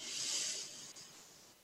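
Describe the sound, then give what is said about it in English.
One slow, deep breath is drawn in during a guided relaxation exercise, a soft airy hiss that swells early and then tapers into a faint, steady flow. “And take another deep breath in.”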